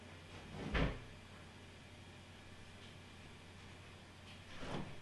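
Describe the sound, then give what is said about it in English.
A door is opened to let a dog outside. Two brief, faint clunks, one early and one near the end, are separated by quiet hiss. “Go ahead, open the door.”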